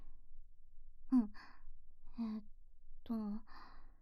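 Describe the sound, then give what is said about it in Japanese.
A deep breath in and out, heard as three voiced, sighing exhales with breathy tails, spaced about a second apart against near silence. “まずは深呼吸をしてください。”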